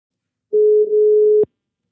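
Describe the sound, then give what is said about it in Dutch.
Ringing tone of an outgoing telephone call: one steady, mid-pitched electronic tone lasting about a second, ending in a short click, heard alone. “We gaan Martin even bellen of er nog een interessante casus op het forum is verschenen.”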